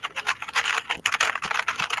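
Rapid typing on a computer keyboard: many quick, dense key clicks run steadily throughout with no pauses and no voices.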